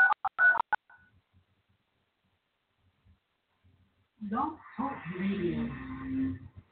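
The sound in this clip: Telephone touch-tone dialing begins after connecting a call online: a quick run of a few beeps, then near silence, then a voice starts speaking.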